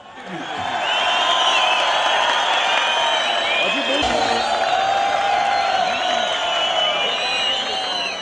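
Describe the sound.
A concert audience welcomes a performer invited onstage with sustained cheering and applause. Voices rise above the dense crowd noise throughout.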